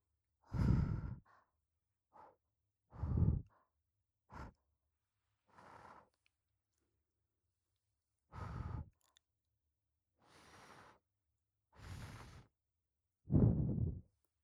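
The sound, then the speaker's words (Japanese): Gentle breaths blown into the ear, heard as nine soft, airy puffs spaced irregularly, each a short breathy rush, some fuller and louder, with quiet gaps between them and no talking. “お姉ちゃんがふうふうしてあげちゃいます。最初は軽めに、”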